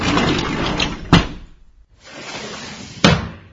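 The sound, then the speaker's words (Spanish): Windows being shut twice in turn, each a rushing sliding scrape that ends in a sharp thud, the two closings separated by a short quiet gap. “Ya lo cerré todas mis ventanas, ya no está entrando aire”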